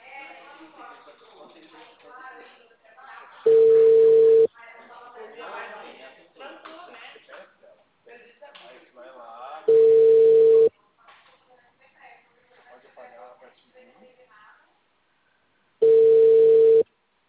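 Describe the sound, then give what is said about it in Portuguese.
Three steady, even phone ringing tones sound as a call goes unanswered, each lasting about a second and spaced several seconds apart, with a person talking in between. “Mais uma vez, vou ligar. Eu tô tentando, viu? Mas a véia não atende.”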